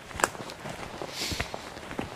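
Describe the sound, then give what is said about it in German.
Footsteps of someone walking along a solid two-metre wooden board fence beside a large property. Soft, irregular steps are mixed with a few sharper scuffs, fairly quiet throughout. “jetzt laufe ich hier an so einem Bretterzaun entlang, der ist massiv, 2 Meter hoch und zieht sich hier über ein riesen Grundstück entlang”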